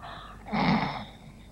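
A single audible breath from a person, a soft, gasp-like rush of air that swells and fades within about half a second, faint and alone.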